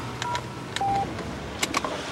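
A number is dialed on a telephone in a car: a few short keypad beeps with soft clicks between them, over a steady low rumble.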